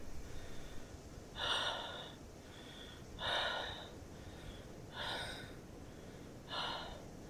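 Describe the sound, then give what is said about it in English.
Heavy breathing of someone catching their breath after running: four loud, rasping gasps spaced about two seconds apart, with fainter breaths between them over a low background hiss. “Stop. Get your breath.”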